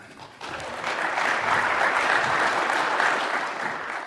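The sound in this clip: Audience applause welcoming a speaker to the stage at a mining-technology presentation, starting abruptly after a short quiet moment and then holding as a dense, steady wash of many hands clapping.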